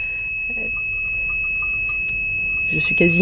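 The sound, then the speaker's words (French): An electronic water level probe sounds as it reaches the water inside a piezometer tube: a steady, continuous high-pitched beep that holds for the whole stretch, with a voice speaking briefly near the end. “quand j'atteins l'eau, il y a une lumière qui s'allume et une sonnerie qui se fait entendre.”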